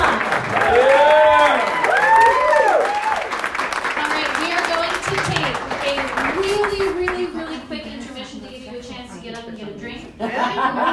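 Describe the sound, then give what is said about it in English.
An audience at a comedy show applauds a comedian, with clapping and scattered chuckles from the crowd running under a speaking voice throughout. “Welcome back. Give it up for Emma.”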